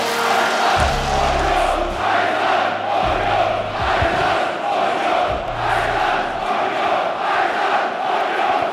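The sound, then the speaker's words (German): Football supporters at Union Berlin's Alte Försterei stadium during a home match, with a thick, continuous roar of singing and chanting voices and a few low thuds early on. “So klingt das im Stadion an der Alten Försterei, wenn Union zu Hause spielt.”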